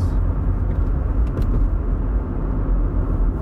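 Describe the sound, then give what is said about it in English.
Cars speeding by on a highway make a steady, loud low road rumble and roar, with no single pass standing out from the continuous noise. “three cars all speeding by me on the, the right side”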